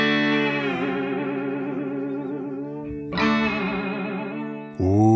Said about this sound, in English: Going through a Vox AC-30. And a Ernie Ball Music Man St. Vincent signature model. Wank on that whammy bar. Let me hear it.